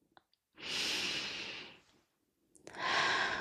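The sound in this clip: A deep breath drawn in during a guided relaxation exercise: a long, airy inhalation followed by a second long breath, steady and fairly loud, with no talking.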